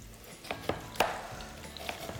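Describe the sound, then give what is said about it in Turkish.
Onions sauté in oil in a pan with a faint steady sizzle, broken by a few sharp clacks of stirring, the loudest in the middle. “Soğanımız kavruluyor mu? Yağ ekledin mi sen? Ekledim tabii ki.”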